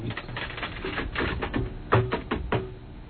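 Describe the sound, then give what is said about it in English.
Buttons being pressed on a CD player, a run of many sharp, hard clicks at a moderate level. “Okay, now I got to go figure out how to work the CD player.”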